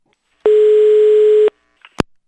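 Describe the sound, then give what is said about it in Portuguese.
A telephone dial tone heard while calling a mobile phone: one loud, steady buzzing tone lasting about a second, which cuts off abruptly and is followed by a few short clicks. “Eu acho que eu vou ligar pro teu telefone celular.”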